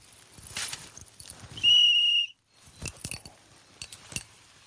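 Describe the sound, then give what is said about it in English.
A person blowing a whistle: one loud, steady, high-pitched blast lasting under a second, set among quieter scattered clicks and clatter. “I was sure I heard his whistle.”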